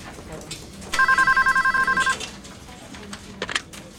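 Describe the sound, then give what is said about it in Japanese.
A telephone rings with an incoming call in one short burst of rapid electronic pulses, clear and bright over a low murmur of background noise. “小李打来了电话。电话转接到小野处。”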